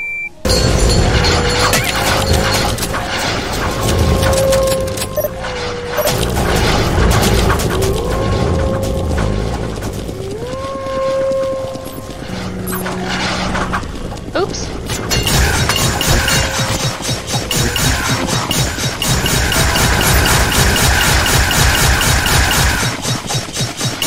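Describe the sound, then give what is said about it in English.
C4 explosives detonate in a video game as loud, booming blasts mixed with crashing, shattering effects and tonal game sounds, dense and continuous throughout. “Detonates all C4.”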